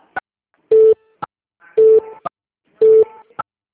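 Telephone keypad tones as a password is keyed into an automated bank phone line: three steady mid-pitched beeps, each with short sharp clicks around it, spaced evenly and fairly loud.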